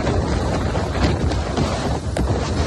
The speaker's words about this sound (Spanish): Y así suena también el viento en Menorca.